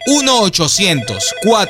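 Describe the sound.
Telephone ringing after a number is dialed, a loud warbling electronic ring in quick repeated sweeping bursts.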